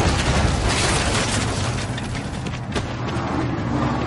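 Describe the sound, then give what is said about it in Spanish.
A tank knocking down a wooden cabin in a World War II war film, a loud, dense crashing roar with heavy low rumble that holds steady, then eases slightly toward the end. “El tanque derriba la cabaña.”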